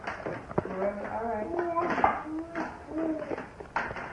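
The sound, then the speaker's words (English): A spoon is played with, giving light metallic clinks against dishes at irregular moments, while voices vocalize over the clatter. “Let us play with the spoon for a minute.”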